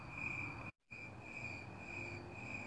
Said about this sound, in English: I'm sitting outside right now with a chorus of crickets. It's absolutely beautiful. It's actually very loud where I am.